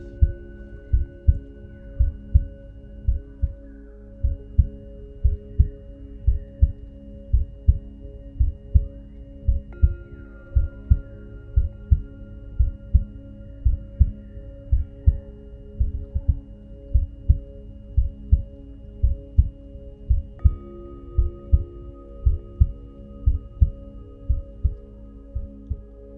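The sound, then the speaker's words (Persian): Heartbeat thumping in a steady, even rhythm of low, soft thuds, many beats in succession over a faint sustained hum, with no talking. “تمام توجهت به ضربان قلبت باشه و مطمئن باش که میتونی صدای قلبت رو متوجه بشی.”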